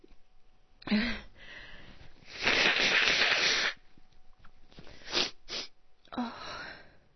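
A person sneezes: a few sharp bursts of breath, a longer rushing exhale and sniffly noises between them, fairly quiet and without other sound.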